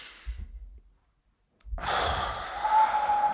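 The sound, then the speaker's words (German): Deep breathing in and out during a guided relaxation exercise: a soft, brief breath, a pause of near silence, then a long, loud, airy breath that holds steady to the end. “atme tief ein und aus”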